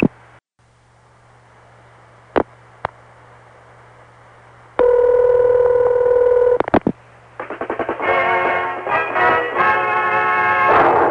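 Telephone line sounds as a number is dialed: a couple of sharp clicks over a low hum, then a loud steady tone, more clicks, and finally a long run of rapid, loud tone bursts.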